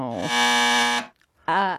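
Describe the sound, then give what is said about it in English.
A quiz game buzzer gives one loud, harsh, sustained blast lasting under a second, with people talking just before and after it. “No, that's my buzzer.”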